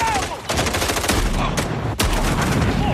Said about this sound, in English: That shotgun is a beast.